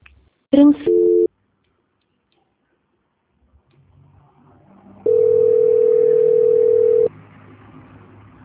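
Telephone tones while a call is redialed: two short beeps at the start, a quiet pause, then a steady dial tone held for about two seconds before it cuts off.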